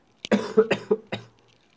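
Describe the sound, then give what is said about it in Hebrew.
A person coughs in a quick run of several short, raspy bursts, then falls silent, with no talk alongside. “סליחה, יש לי שנייה להשתעל.”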